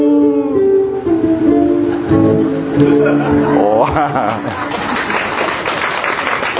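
Audience applause follows a song performed with guitar accompaniment: tonal music fades in the opening seconds, then a dense, steady patter of clapping takes over and holds at a fairly loud level to the end.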